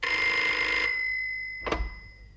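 A telephone bell rings in a bright, sustained metallic trill for nearly a second, then stops; after a short silence a single low thump follows, likely the receiver being lifted.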